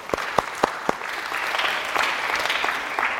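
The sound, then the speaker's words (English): An audience in a church applauds a young man whose team won a tournament. A few sharp, separate claps open, then dense, steady clapping fills the rest. “Congratulations. Give him a hand there.”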